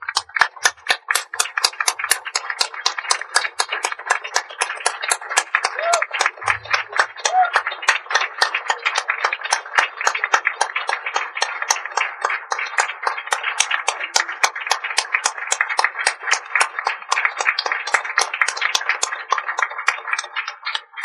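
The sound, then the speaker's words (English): A standing audience applauds in welcome at an evening event, with steady crisp clapping that continues evenly for about twenty seconds, dense and rhythmic with no voices over it. “Would you please stand to give them an ovation of welcome?”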